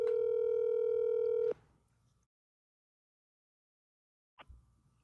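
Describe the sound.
Ringback tone of a telephone call waiting to be answered: one long, steady buzzing tone of about a second and a half, then near silence, then a brief faint sound near the end.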